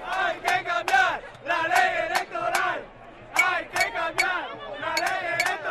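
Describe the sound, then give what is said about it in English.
Thousands of people protesting in a Madrid street in Spain: crowd voices chant and shout in rhythmic bursts. Several loud swells are separated by short dips and one quieter stretch in the middle. “The sound of thousands of Spaniards protesting in Madrid over the weekend”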